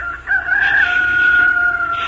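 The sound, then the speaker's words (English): A rooster crows in one long, loud, drawn-out call with a strained, wavering pitch, rising at the start and holding steady to the end, over a low background rumble. “The rooster started to crow.”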